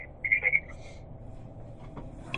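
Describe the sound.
A phone shutting down during a meeting gives a quick run of three high electronic beeps near the start. A faint low hum and a few soft ticks follow.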